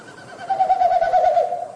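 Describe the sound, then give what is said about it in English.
A Wilson's snipe winnowing in courtship flight, air pushed through its stiff outer tail feathers at each wingbeat: a hollow, rapidly pulsing hoot that swells in, holds for about a second and fades, heard alone. “they do this flight, these winnowing flights is what they're called. So each time they flap their wings, it pushes air through the stiff outer tail feathers and it makes that woo, woo, woo, woo, woo kind of sound.”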